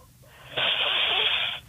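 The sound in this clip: A quiz contestant takes a deep breath in: a single breathy rush lasting about a second, loud and alone, sounding thin and band-limited.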